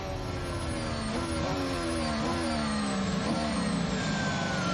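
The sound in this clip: Formula 1 car accelerating on track, its loud, high engine note climbing and dropping back through several gear changes, continuous throughout with no voices.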